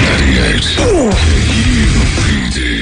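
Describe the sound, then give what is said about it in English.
A computer gives off a loud, continuous, noisy whoosh with a couple of short downward-gliding tones near the middle. “Did you just yawn something and say a filthy word? I didn't. Oh, I thought that's what that no, was. No, it's Toledo's computer. Oh, is that what that was? Yeah.”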